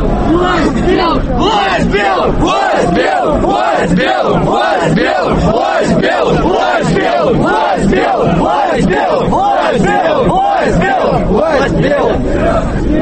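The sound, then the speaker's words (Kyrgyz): A large crowd of marchers chants slogans in unison at a nationalist march, a loud, steady rhythmic chant with regular pulses that repeat evenly from start to finish. “Марш топ-топ болуп бөлүнүп, колонналар акырын жылып, катышуучулар урандарды кыйкырып жатышты.”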